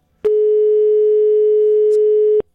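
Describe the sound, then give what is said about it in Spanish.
A telephone line tone sounds while a call is being dialed: one loud, steady, mid-pitched hum that starts abruptly, holds unchanged for about two seconds and cuts off sharply, heard alone. “Ahora vamos a marcarle a Javier, que es el esposo. A ver si nos contesta Javier.”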